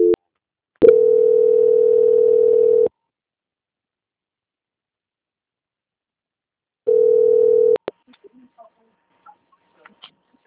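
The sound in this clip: Telephone call transfer tone on a bank's phone line: a steady low beep held about two seconds, several seconds of silence, then a second, shorter beep, followed by a few faint clicks.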